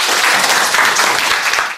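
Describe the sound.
Applause from a class encouraging a student during a lesson on criminal law: dense, steady clapping that holds at an even level, then fades out quickly at the end.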